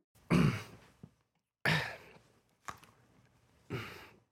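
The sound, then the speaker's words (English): A person clearing the throat in a few short, harsh, breathy bursts, each separated by a quiet pause, with no talk around them. “Just doing some throat clearing exercises, were you?”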